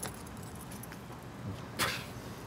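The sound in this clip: Apartment keys jangle in one brief, bright metallic burst that stands out from a steady low background rumble.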